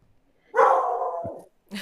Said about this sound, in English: That was my dog agreeing with me.